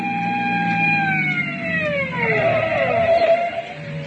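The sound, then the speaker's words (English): Police car siren from a car pulling up behind a speeding driver on wet roads: a loud, wailing tone that holds, then slides downward in pitch as it winds down. “Hey, that's a cop. That's what you get for driving so fast.”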